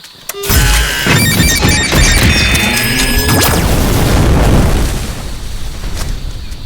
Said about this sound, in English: Yeah, these rocket batteries are really cool.